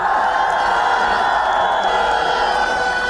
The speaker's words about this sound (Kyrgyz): Азыр мына кыйкырып атасыздар стадион деп.